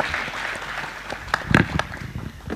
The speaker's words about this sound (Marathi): जोरदार टाळ्या होऊन जाऊ देत अंकिता जोशी यांच्यासाठी.